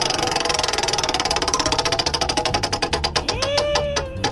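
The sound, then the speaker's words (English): A prize wheel spinning in a quiz game, a rapid stream of ratcheting clicks that gradually spread out and slow as the wheel loses speed, loud and without talk. “I'm going to spin the wheel. And it's going to land on one of three categories.”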